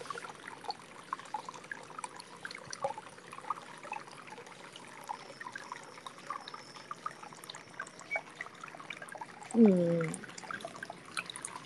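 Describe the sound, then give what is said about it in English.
A thin trickle of water runs from the tap into a warm bath, a faint, steady dribble with scattered soft drips, and a brief voice murmurs near the end. “I'm trying to think how small of a trickle is a trickle enough. Okay, this is okay, I think. I'm just letting the water trickle now.”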